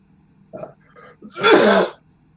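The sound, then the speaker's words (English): A lingering, residual cough: a couple of faint throat sounds lead into one loud, harsh, breathy burst, followed by silence. “But one of the residual things is the cough that I have.”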